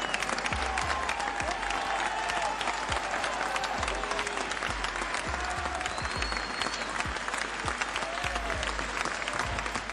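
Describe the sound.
Audience applause with cheering, a continuous, even roar of many hands clapping, with a few thin whistles riding on top and a low hum underneath.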